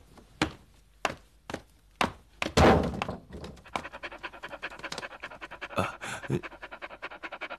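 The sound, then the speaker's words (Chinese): A dog pants in fast, rhythmic bursts of breath, loud and continuous, with several sharp thumps in the first few seconds. “过来过来啊，过来哦。这只狗是吃人肉长大的，随我3年，”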